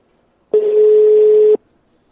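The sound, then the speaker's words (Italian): A single telephone ringback tone sounds while a call is being placed: one steady, unwavering electronic note lasting about a second, surrounded by silence. “Stiamo chiamando Stefano.”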